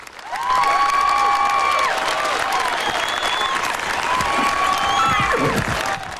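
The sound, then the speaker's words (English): Spectators applaud at an outdoor battlefield reenactment, a crowd's clapping rising quickly after a short quiet start and holding dense and loud for several seconds before easing slightly at the end. “she applauds with the other spectators”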